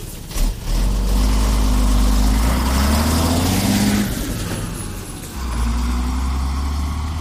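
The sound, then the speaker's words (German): Road traffic of cars, buses and trucks: a loud, continuous rumble of engines that eases briefly near the end before swelling again. “Alle Fahrzeuge zusammen machen ganz schön Krach. Und viele fahren schnell.”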